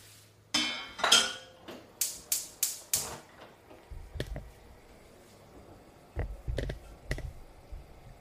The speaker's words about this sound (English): okay that's it now we turn on the fire